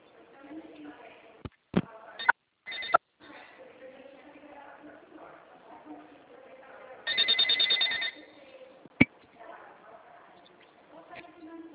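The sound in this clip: A telephone rings over the line while a call is being transferred. One ring burst with a pulsed, buzzy texture lasts about a second, set against faint low line noise and a few sharp clicks.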